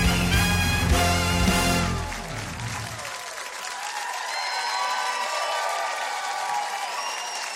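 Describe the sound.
A TV talk-show studio audience applauds and cheers as the guest, Dr. Phil, enters, with band music for the first few seconds, then sustained broad applause mixed with cheers and whistles.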